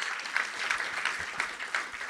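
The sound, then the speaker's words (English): Church audience clapping: steady applause from many hands, with a regular beat that peaks about every third of a second, moderately loud throughout. “Come on, you can clap for that.”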